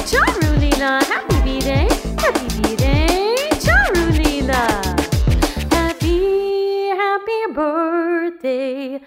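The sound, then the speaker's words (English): Dog yelps and a howl set to a birthday song: a quick run of short rising and falling yips, then a drawn-out, wavering howl. Both are loud and clear over the music. “My dog says, ah woo!”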